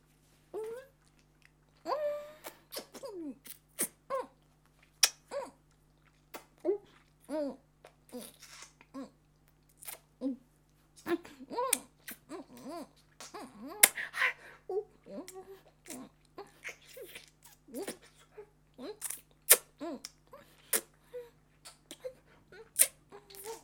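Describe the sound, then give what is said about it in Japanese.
Soft, wet licking and sucking mouth sounds make up many quiet, irregular clicks and smacks, with short pauses between them. “舐めたり吸ったり今からします。”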